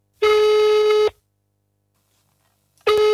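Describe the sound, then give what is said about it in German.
A telephone tone for an incoming call, a loud, buzzy, steady tone rich in harmonics, sounding in two bursts separated by a long silent pause, the second burst cut off at the end. “Sorry, ich muss dich kurz unterbrechen, weil ein neuer Anruf eingeht.”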